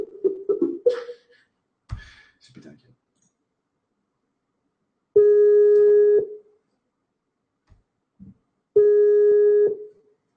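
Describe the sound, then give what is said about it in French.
Ringback tone of an outgoing telephone call: two steady, even-pitched tones of about a second each, separated by a pause, after brief talk and a few clicks at the start. “on va appeler Marilyn, on va voir ce qu'elle pense euh, des flammes jumelles”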